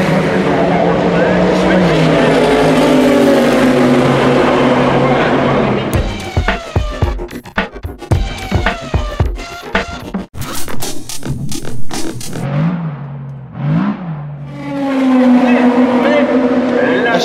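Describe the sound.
Race cars roar past the main grandstand during an endurance race with Porsche and LMP2 prototypes, making a burst of rapid, rising-and-falling engine howls. Commentary and crowd-level talk run before and after the passing cars.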